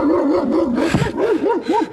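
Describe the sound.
Barking from a toy dog that real dogs have bitten: a wobbling, whining electronic tone that rises and falls many times, with a brief harsh burst midway, sounding alone for about two seconds.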